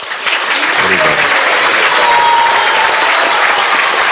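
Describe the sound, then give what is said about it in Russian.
Loud applause from devotees blessing those being initiated, a dense, steady wall of clapping that swells quickly and holds at full strength to the end. “Давайте попросим всех преданных благословить инициирующихся громкими аплодисментами.”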